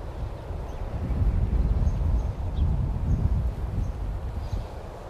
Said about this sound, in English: Okay, I know there's wind. Let's see. Hopefully, it's not too bad. I'm trying to stay out of the wind.